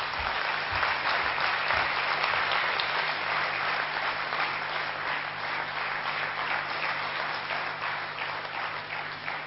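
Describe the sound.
An audience at Gyan Sarovar gives sustained applause to welcome a guest, a steady, dense wash of clapping that stays even in level for several seconds.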